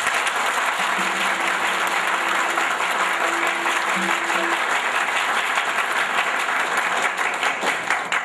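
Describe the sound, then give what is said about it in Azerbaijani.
An audience applauds a guest with steady, dense clapping that stays loud and continuous throughout. “Sən bu bəyin özünə bir qəşət diqqətlə tamaşa eləyin. Bu bəyin özünə layiq bir əl salınma salın.”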